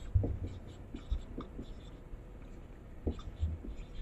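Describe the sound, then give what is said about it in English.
Hand-writing strokes as a number is written out, faint scratchy rubs coming in a few short irregular bursts with quiet gaps between them. “I'll write it out one last time.”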